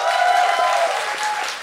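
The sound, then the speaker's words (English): Audience applause at a live show: a dense, steady wash of clapping that holds fairly loud through the short stretch before easing slightly toward the end. “Round of applause”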